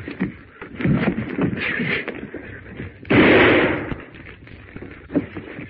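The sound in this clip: A gunshot rings out in a film scene as one loud, harsh blast with a short rumbling tail, with urgent voices shouting before and after it.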